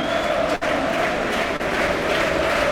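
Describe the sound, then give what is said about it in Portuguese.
Benfica football fans cheering their team in a stadium during a match, a dense, continuous crowd roar that stays loud and steady throughout. “E o público do Benfica a puxar pela sua equipa.”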